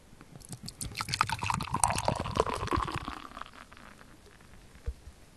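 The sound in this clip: Yuzu beer being poured, a bubbly, gurgling stream lasting about three seconds before tapering off, followed by a single faint drip.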